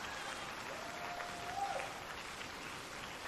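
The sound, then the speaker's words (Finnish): Applause rises from a vast audience at an evangelist's mass rally, a dense, steady wash of countless clapping hands that stays fairly quiet and even throughout. “Taputukset Jeesukselle.”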